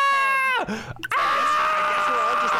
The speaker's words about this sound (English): mushrooms that scream for a while.